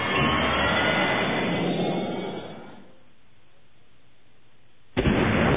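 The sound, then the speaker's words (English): A missile launches from a fighter aircraft: a loud, dense jet roar sustains and then fades to a low hiss, before a sudden sharp burst of rushing noise returns near the end. “He hit the trigger, then pulled back on the stick for all he was worth. Missile away.”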